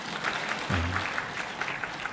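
Brief applause from a church audience during a service, a quiet, quick patter of clapping that lasts only a moment.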